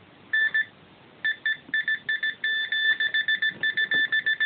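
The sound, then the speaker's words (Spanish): Electronic beeps used as yes/no answers, one beep for yes and two for no: a long run of short, steady-pitched tones, some paired, coming in quick bursts after a brief pause. “Tal y como has hecho ahora, un pitido, sí. Dos pitidos, no.”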